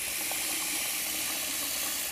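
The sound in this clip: Water running from a kitchen sink tap into a bowl for washing rice, a steady, even rushing hiss that stays constant throughout with no other sounds or voices.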